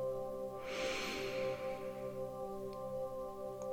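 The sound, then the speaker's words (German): A single deep inhale through the nose during a guided meditation, a soft airy hiss that swells and fades over about a second and a half above a steady, quiet low musical drone. “Und Atme tief durch deine Nase ein.”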